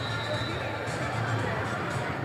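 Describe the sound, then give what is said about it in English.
Crowd noise at a Cathedral high school basketball game, a steady roar of many voices and babble with no clear break. “And things have really started to turn celebratory for Cathedral as the Panther gets down and gets a cheer from the crowd.”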